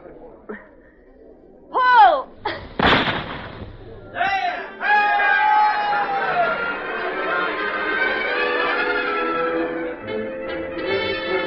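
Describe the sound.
One sharp gunshot cracks out during a shooting match where shots alternate at birds released across a field, set among crowd voices, gasps and other sustained tones.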